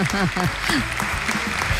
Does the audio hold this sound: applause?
yes